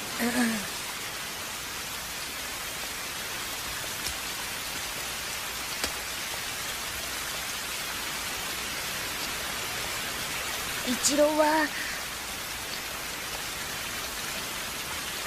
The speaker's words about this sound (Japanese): せっかくだけど、この雨じゃ傘さしても意味ねえか。